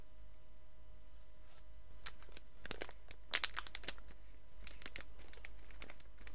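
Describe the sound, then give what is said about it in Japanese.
Crinkly plastic wrapping of a grape-flavored gummy candy package rustles and tears open in irregular bursts after a quiet start, with sharp crackles clustering in the middle over a low steady hum. “今からグミを食べます。”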